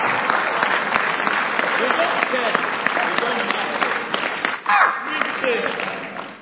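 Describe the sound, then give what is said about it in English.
Audience applause at a religious meeting, a dense, steady wash of many hands clapping that runs throughout, with a brief surge near the end before tapering off. “This one, you can decide to clap or you won't clap. It's okay.”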